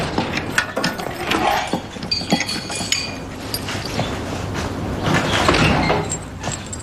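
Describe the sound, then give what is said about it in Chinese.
A door is opened with a drawn-out run of mechanical ratcheting and metallic clinks, many small clanks and scrapes repeating at a fairly even loudness for several seconds. “把门打开。”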